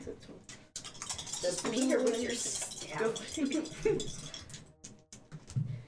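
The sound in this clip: Dice rolled on a table during a tabletop role-playing game, giving a dense rattling clatter of small hard objects that runs for several seconds under people talking.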